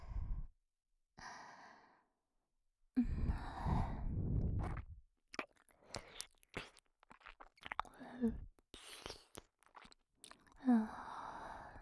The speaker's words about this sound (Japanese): 耳の奥舐めてあげるね。真っ赤になった君の耳、いただきます。